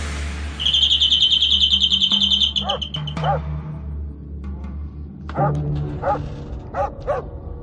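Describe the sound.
A dog barks in several loud, harsh bursts, some in quick pairs, after a high bird trill chirps steadily at the start.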